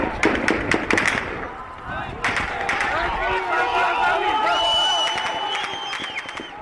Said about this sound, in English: Security forces come, protesters throw rocks at them, security forces start shooting.